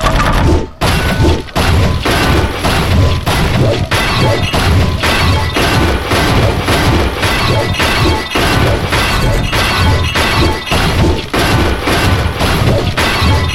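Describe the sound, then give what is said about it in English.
Walls smash and shatter in a video game, a loud, relentless run of many crashing impacts and breaking debris, one blow hitting close after another with brief dips between them. “South destroyed. I got the southern wall.”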